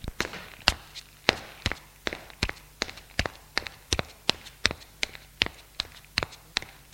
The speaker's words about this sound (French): Prennent leurs valises et montent un escalier de bois pour aller à l'étage.